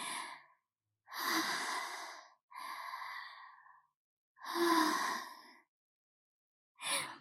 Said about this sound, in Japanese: ちょっと深呼吸して落ち着く感じで、もう深呼吸してね、ちょっと落ち着こうと思います。